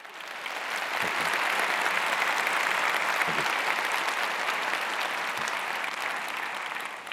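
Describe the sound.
Sustained audience applause welcomes a speaker to the stage. Dense, even clapping swells quickly and holds at a steady level throughout.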